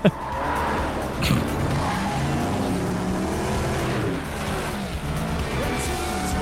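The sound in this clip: Engine roar of a fan car, a car driven by a large fan like a fan boat: a loud, continuous, steady roar that stays strong throughout.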